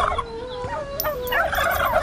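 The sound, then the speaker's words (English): A large turkey gobbles in a loud, continuous, rapid warbling call lasting about two seconds. “Oh honey, I don't want a hen. I want a giant turkey for Thanksgiving Day.”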